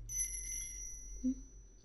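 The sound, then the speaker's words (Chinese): A small bell on a pink pet collar rings with a faint, sustained high tone and a brief soft knock partway through. “这个粉粉的铃铛圈，小项圈”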